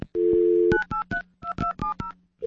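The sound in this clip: A telephone dial tone, then a quick run of touch-tone beeps as a number is dialed, each short dual-pitched tone separated by brief gaps.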